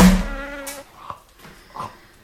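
Insect-like buzzing of a wasp, a loud harmonic drone that fades out within the first second. A few faint, brief sounds follow in near quiet.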